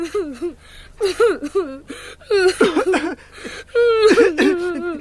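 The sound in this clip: A voice performs a dragon's coughing: a few harsh, throaty voiced bursts with wavering, bending pitch, separated by short gaps, uneven and fairly loud.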